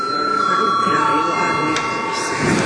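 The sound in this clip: A steady electric bell tone rings without a break to call a parliament session to order. Murmuring voices sit beneath it.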